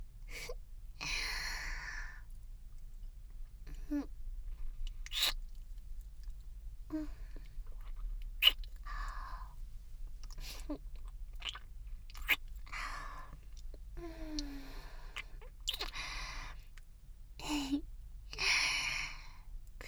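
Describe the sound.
Quiet, wet chewing and biting as a person eats food, many soft irregular mouth sounds spread across the stretch with no talking.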